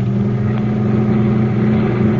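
Engine of a milk truck driven in a chase, a loud, steady low drone with a constant hum and no clear rise or fall in pitch, with no voices over it.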